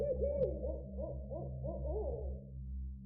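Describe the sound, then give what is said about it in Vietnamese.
A barn owl calls from a dense banyan tree canopy in a run of quavering, wavering hoots over a steady low hum. The calls are fairly faint and fade out toward the end. “Bất giác từ trong tán cây đa rậm rạp bắt đầu vang lên tiếng chim lợn, nghe vô cùng não nề”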